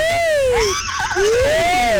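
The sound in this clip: A human voice imitates a horse's whinny with high, wavering, whistling tones that rise and fall in two long arcs, loud and alone.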